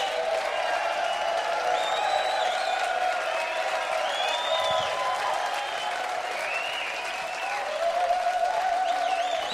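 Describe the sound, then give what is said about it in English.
An audience applauds a youth band, with steady clapping mixed with scattered whoops and whistles, holding at a fairly even level throughout. “La Banda Juvenil. Let's hear it for them. La Banda Juvenil.”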